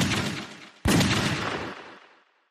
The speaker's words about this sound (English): He heard three more shots off to his left, just before something popped out of the debris to his right.